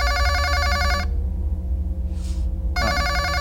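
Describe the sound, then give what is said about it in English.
A telephone ringer sounds in two loud, bright bursts of a trilling ring separated by a pause of about a second and a half, with no voices. The ringer is left on and the call goes unanswered. “You know what? I am not gonna answer that. I'm just gonna turn the ringer off, all right?”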